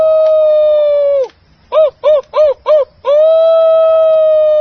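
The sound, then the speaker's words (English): Voices imitating a wolf howling at the moon: a long, steady howl, then four short rhythmic yelps, then another long sustained howl, all clear and loud with no other sounds. “Let's all bay at the moon. What? You know, howl like a wolf.”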